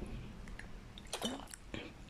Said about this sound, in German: So, jetzt muss ich einen Schluck nehmen, bevor wir zum Kapitel 2 kommen.